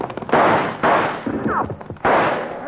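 Gunshots in a Western-style shootout: three loud, sharp bursts, each with a rough, ringing decay, spaced irregularly over a few seconds with no voices.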